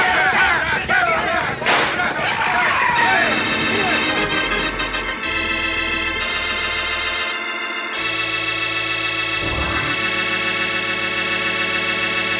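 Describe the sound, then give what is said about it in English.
Gunfire as vigilantes chase escaping riders in a western drama: sharp, loud bursts in the first couple of seconds, followed by steady dramatic orchestral music. “Use your guns. If you have to, shoot him.”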